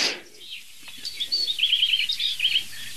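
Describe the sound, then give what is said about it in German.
An ortolan bunting sings a repeated strophe with short pauses. Its series of high, clear chirping notes follows an initial brief rustle and stands alone against a quiet background. “Es ist aber trotzdem ein Ortoladen.”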